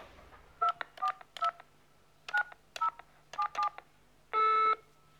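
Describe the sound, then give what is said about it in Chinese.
Telephone keypad dialing a call: seven short, bright touch-tone beeps in uneven clusters, followed by a longer, steady, fuller tone, with no talking. “我马上去跟他打个电话。”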